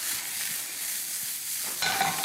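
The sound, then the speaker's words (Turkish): Mushrooms sizzle in a pan as kapia pepper and garlic are added: a continuous bright frying hiss with fine crackle, swelling louder near the end. No voices. “Evet, mantar Seni buradan gördüğünüz alacağım. üzere gayet güzel kavruldu. Hemen içerisine kapya biberi ve sarımsağını ekliyorum.”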